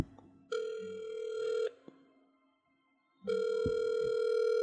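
An outgoing telephone call rings with two long, steady buzzing tones. Each lasts over a second, separated by a quiet pause of about a second and a half, with no talk.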